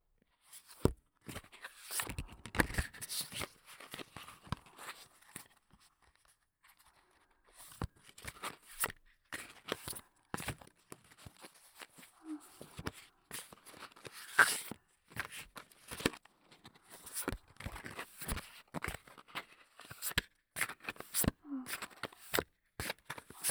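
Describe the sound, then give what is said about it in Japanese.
Playing cards get an overhand shuffle, producing many faint, soft slapping and riffling clicks in irregular bursts with brief pauses between them. “よし、左は欧米かとツッコミが入るオーバーハンドシャッフル。”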